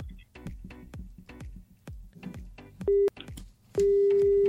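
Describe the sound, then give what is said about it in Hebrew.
A telephone call is dialed with a quick, rhythmic run of many clicks and taps. A steady tone breaks in briefly, then returns and holds to the end. “יאללה, הנה אנחנו מחייגים.”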